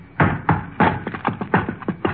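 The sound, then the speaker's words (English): Lock on a trunk being forced open: a rapid series of hard knocks and bangs with uneven spacing, loud and alone. “There. I broke the lock.”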